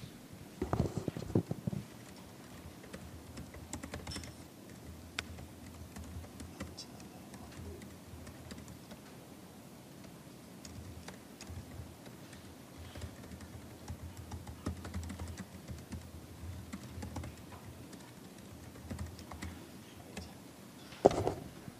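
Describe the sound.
Typing on a computer keyboard as a prompt is entered for a sentiment classifier: many soft, irregular key clicks and taps, fairly faint, with a few sharper knocks among them and no one speaking.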